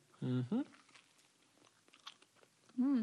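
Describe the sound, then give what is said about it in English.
Someone bites into and chews a peanut butter and jelly sandwich, with soft crunching and chewing noises falling between short vocal sounds. “So we're gonna each take a bite.”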